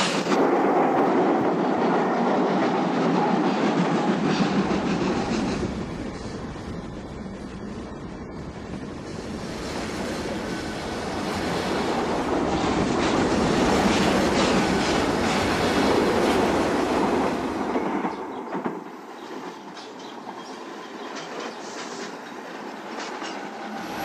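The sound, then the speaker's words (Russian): A steam locomotive pulls a train away from a station with artillery platforms: wheels run and the engine puffs in a loud, continuous rumbling clatter that dips briefly, then eases toward the end. No voices are heard. “Его поезд тоже трогается. Бегут колеса, пыхтит паровоз.”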